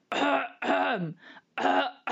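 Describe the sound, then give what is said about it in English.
Low, wet, rattling coughs made deliberately as a vocal exercise, with a few rough, throaty bursts in a row. Each has a heavy, gravelly voiced tone, and one slides downward in pitch. “The easiest thing that I've found is to start with a cough.”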